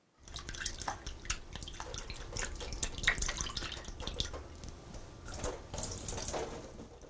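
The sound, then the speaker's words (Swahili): Tap water runs steadily while dried raisins are washed in a strainer, a continuous hissing splash broken by irregular drips and spatters, with no talk. “sasa osha zabibu kavu na uzikaushe kwa kutumia chujio.”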